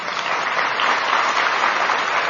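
An audience applauding, a dense, steady wash of clapping that holds at an even, loud level throughout, with no voices standing out.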